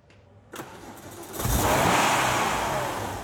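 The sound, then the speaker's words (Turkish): A car engine with a power problem that flattens at mid revs cranks over, catches, and settles into a loud, steady running roar that holds to the end. “Kulağa fena gelmiyor ama Mike orta devirlerde motorun tam da hadi diyeceği yerde biraz düzleştiğini söylüyordu.”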